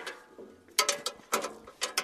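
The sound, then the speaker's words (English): Metallic clanks and ratcheting come from a seeding machine as a father and son rework it in a farmyard near Ritzville. Several sharp, irregular mechanical bursts stand out over a low clatter, with no voices. “A father and son are reworking a seeding machine in a farmyard near Ritzville.”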